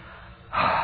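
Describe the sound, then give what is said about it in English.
A deep breath is let out in one short, forceful rush of air, quiet at first and then a sudden loud burst of breath. “Again, take a deep breath. Now let it out.”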